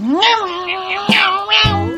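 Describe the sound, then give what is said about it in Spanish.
A tomcat chasing a female kitten meows in one long, loud cry that rises in pitch, then lets out a couple of shorter, sharper cries. “Qué vida fácil la de este gato sin vergüenza, sin una puta contradicción.”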